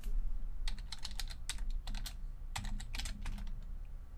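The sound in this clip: Typing a web link on a computer keyboard: rapid, light key clicks in quick bursts with short pauses between them. No voices are heard.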